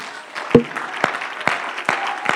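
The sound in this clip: A church audience claps its hands in praise, with a few sharp, separate claps standing out over softer, scattered clapping at a loose, uneven rhythm.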